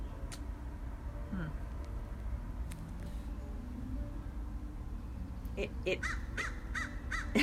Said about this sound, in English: I don't know if they'll be able to hear the crows. We have these lovely crows in the redwoods.